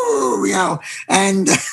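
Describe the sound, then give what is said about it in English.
A human voice imitates the trumpeting of circus elephants in a few drawn-out, wavering vocal calls with strong harmonics, separated by short gaps. “So you hear these elephants and go,”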